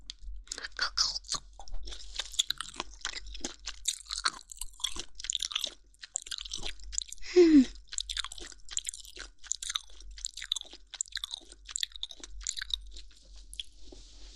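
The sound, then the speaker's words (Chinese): Crisp bites and crunches of chewing a crunchy ear, repeated many times in a steady, close rhythm with no talking. “让姐姐在这边的耳朵先咬一小口试一下，看味道和那边的有什么不一样不？”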